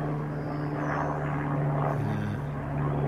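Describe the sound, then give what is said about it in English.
Rotor and engine drone of a helicopter passing overhead miles away: a steady, unbroken low hum with sustained tones, loud and even throughout. “Now, do I need to stop talking while this goes overhead? Here, let me just be quiet and film this helicopter. It's actually miles away.”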